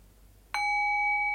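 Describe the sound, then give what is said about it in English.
A single bell strike rings out after near silence, sounding a clear, bright tone with steady overtones that sustains to the end. “noticing how the bell covers up the silence momentarily, and then the silence gradually returns back to the forefront.”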